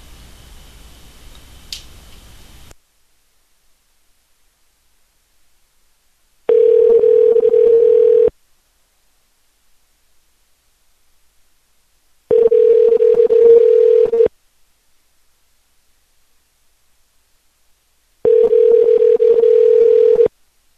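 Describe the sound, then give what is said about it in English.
A telephone rings back with an odd-sounding ring after a call is dialed again: a short burst of noise, then three long, steady mid-pitched tones of about two seconds each, separated by even gaps of silence. “That sounds all weird with the ring. I don't know what that is. I'm gonna call it again.”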